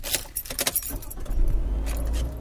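Keys jangle briefly, and then a car engine starts and settles into a steady low idle that carries on to the end.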